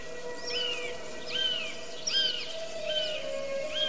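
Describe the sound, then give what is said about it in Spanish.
A bird of prey screams in the sky: thin, high, downward-slurred calls repeated several times at fairly even intervals, faint over a steady low background hum. “Un ave rapaz grita en el cielo”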